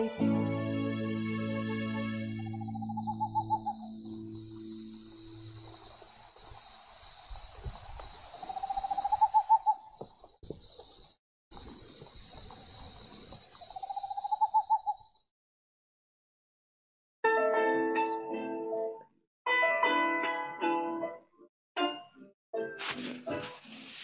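Hooting of a ñacurutú, the great horned owl: three hollow, tonal hoots several seconds apart sound among sustained tones and ringing notes, with no talk.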